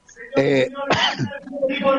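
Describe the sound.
Throat clearing in three short, harsh guttural bursts with brief pauses between them, loud and raspy.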